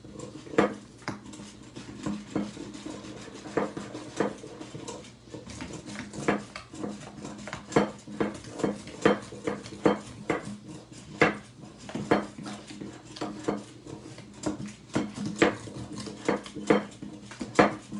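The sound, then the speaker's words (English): Repeated clacking and tapping of a Pogo Whisk working a mixture against the sides of a container, many quick irregular strikes at a steady moderate level with no voices. “So for 30 seconds, let's use the Pogo Whisk here. So here we go, Pogo Whisk.”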